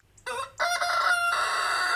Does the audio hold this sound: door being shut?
no